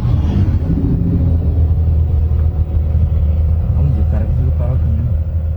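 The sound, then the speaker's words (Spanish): A truck that has lost its brakes gives a loud, continuous low engine rumble that barely varies throughout, with people talking over it. “Perdeu o freio, caminhão.”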